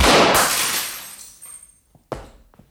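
A rifle going off by accident: one loud, sharp crack opens with a long decaying tail, then a few faint knocks and a final sharp thud.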